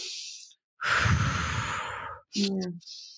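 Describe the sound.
Breathwork exercise with an airy inhale through the nose, then a longer, fuller exhale out through the mouth, followed by a brief voiced breath sound. Soft and close, with no talking.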